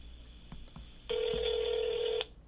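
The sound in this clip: Telephone tones as a call is dialed to a gym: a few faint clicks, then a single steady electronic tone held for about a second before it cuts off.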